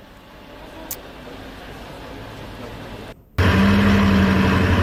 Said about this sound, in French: Il y a une Bugatti Chiron qui est arrivée à Monaco. C'est ça, la voiture que vous avez entendue tout à l'heure. Laissez-moi vous faire écouter ça.